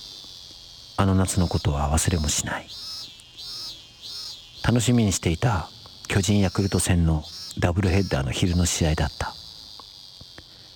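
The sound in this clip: Cicadas shrill loudly on a hot summer day, a steady high-pitched buzzing drone that runs unbroken through the whole clip while a person narrates over it.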